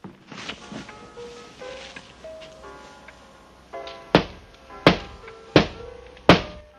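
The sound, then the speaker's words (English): Knocking on a glass-paned door: four crisp, evenly spaced raps, loud and sharp, arrive after a stretch of soft melodic music that keeps playing quietly beneath them. “A figure taps on Nick's glass-paned door.”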